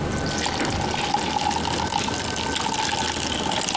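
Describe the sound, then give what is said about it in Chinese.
Water poured into a bottle for a classroom experiment to see whether a ping-pong ball floats, heard as a steady, continuous splashing gurgle that runs without pause for several seconds, with no voices. “把水倒在瓶子中，我们看乒乓球会不会浮起来。”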